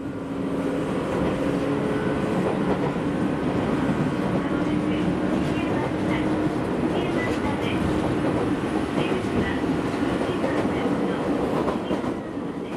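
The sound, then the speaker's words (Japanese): A train runs through a residential area with a steady, loud rolling rumble and faint clattering of wheels on rails that continues without a break. “列車は住宅街の中を抜け丸山下駅を過ぎ、次の止まる駅は”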